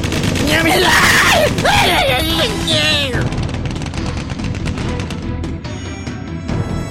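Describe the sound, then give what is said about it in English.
A volley of gunfire, many rapid shots crackling loudly and continuously after a strained, groaning cry at the start. “Open fire.”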